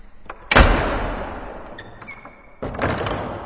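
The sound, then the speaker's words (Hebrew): Doors slamming shut to trap people inside, with doors closed on both sides: two loud, heavy thuds, each followed by a long rumbling decay. “היי, מה זה? מי סגר את הדלת? מה זה? גם בצד השני סגרו את הדלת.”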